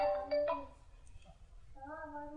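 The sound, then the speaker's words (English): A cell phone ringing: a bright, tonal electronic ringtone with a couple of short melodic bursts at the start, a quiet gap, then a sustained ringing tone returning near the end. “kindly off your cell phone, to use English, Indian English, or put it in silent mode.”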